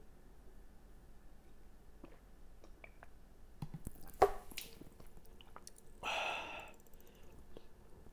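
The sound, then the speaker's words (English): Water spilling onto a pair of headphones gives faint, scattered drips and squishing noises, then one longer splashing hiss near the end. “I think I just fucked up my headphones, though, by spilling all this water on me.”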